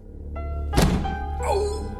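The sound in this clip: A body slams into a door after a run-up, a single heavy, loud thump rising out of a low steady background, followed by quieter sounds.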